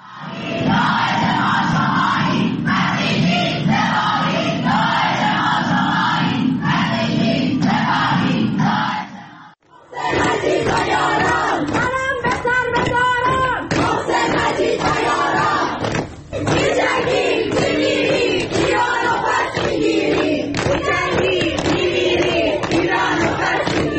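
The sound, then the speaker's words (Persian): A student protest crowd at the art faculty of Soore University in Tehran chants loudly in rhythmic unison, with a brief break near the middle before the chanting resumes just as loud. “و این بخشی از اعتراضات دانشجویی در دانشکده هنر دانشگاه سوره تهران.”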